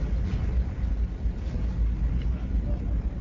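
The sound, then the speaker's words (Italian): The ferry's engine rumbles deep and steady as it departs, a continuous low drone with vibrations running through it and no clear breaks. “In questo momento il traghetto è partito, stiamo sentendo dei rumori inquietanti, c'è un rombo pazzesco,”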